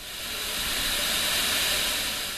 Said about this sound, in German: Bis zu 90 Grad heiß und mit enormem Druck schießt das Erdgas aus einem Reservoir rund 2000 Meter tief unter dem Meeresboden.